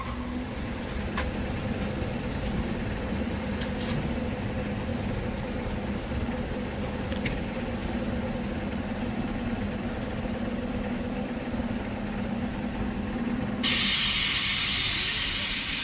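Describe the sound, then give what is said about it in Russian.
Railway station ambience with trains and steam: a faint, steady hiss and low hum with a few soft clicks, then a louder burst of steam hiss breaking in near the end. “ловит такси и едет на железнодорожный вокзал.”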